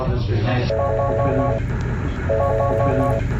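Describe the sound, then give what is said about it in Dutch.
Parents are busy dialing a telephone, producing two runs of short electronic keypad beeps. Each run is a quick series of steady tones, heard over constant background noise and low murmuring voices. “de ouders vandaag druk aan het bellen”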